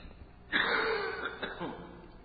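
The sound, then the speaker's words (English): A man coughing: a sudden harsh burst followed by a couple of smaller rough coughs, moderately loud and otherwise alone. “I'm cutting this teaching short because I'm starting to cough”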